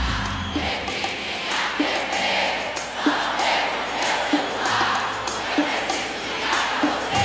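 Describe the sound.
A live concert audience being filmed for a DVD cheers and shouts in a loud, continuous crowd roar, with regular rhythmic accents pulsing through it from start to finish.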